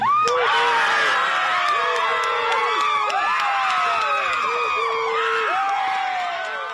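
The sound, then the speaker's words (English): A crowd at George Floyd Square in Minneapolis erupts in loud cheering and high whoops as a verdict is read. The roar is sustained and dense throughout, easing slightly at the very end. “At George Floyd Square in Minneapolis, a crowd gathered earlier this afternoon when they heard that the jury had reached a verdict. And this was the sound of the reaction there as the verdict was read.”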